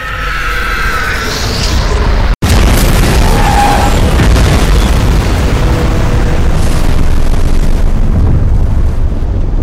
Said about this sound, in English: Auriga's voice booms over the loudspeaker, "Hold on, men," as Yamato is drilled by 4 nearly simultaneous torpedo strikes that shake the whole ship like Armageddon.